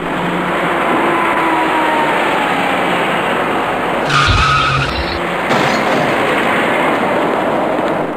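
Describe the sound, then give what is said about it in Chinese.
Tires skid as a dark SUV drives through an intersection where vehicles are turning right, set against steady, loud traffic noise. A brief, heavier burst with a low thud breaks in midway before the continuous roar resumes. “您注意看一辆开过来的深色越野车”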